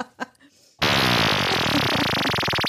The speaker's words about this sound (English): What is that? It's a ghost fart. I caught it on my... caught it on my flatulence monitor.